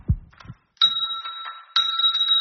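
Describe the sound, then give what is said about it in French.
A small bell hanging on a string is struck by a dog's paw, giving two bright, tinkling rings, each with a sustained high tone. A couple of soft thumps come just before the first ring. “avec sa petite patoune, elle a mis un petit coup dans la cloche.”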